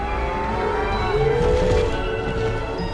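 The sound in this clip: Gyrosphere vehicle accelerating, a dense, continuous mechanical rumble and whir with a whining tone that climbs slightly in pitch midway before levelling off.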